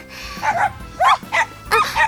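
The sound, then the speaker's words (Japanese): Short dog barks during a walk: a few high, yappy bursts spaced across the moment, clear and fairly loud with no voices over them. “ワンちゃん、応援してくれるの？”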